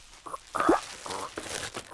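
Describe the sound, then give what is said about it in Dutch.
Crinkling, crunchy plastic as vacuum-packed smoked sausage packaging is torn and wrestled open: irregular bursts of crackle and a short sharp tearing scrape, loud and close, with no talk over it. “Waarom worden die vacuümverpakte rookworsten zo achterlijk verpakt? Ik krijg die verpakking niet eens open.”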